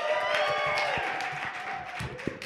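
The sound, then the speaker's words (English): Applause from an audience welcoming a guest onto the stage: dense, steady clapping that holds at an even level throughout, with no talk over it. “Let me welcome up Jo to the stage. Everyone make some noise for Jo.”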